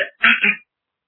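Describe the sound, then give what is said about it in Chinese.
A person clears his throat: a brief catch, then a rasping two-part throat clearing, fairly loud and heard on its own with no talking. “他清了清嗓子往前走了两步”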